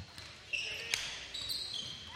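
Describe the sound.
A basketball is dribbled on a court during a game, with a few soft bounces among squeaking sneakers and faint gym crowd noise.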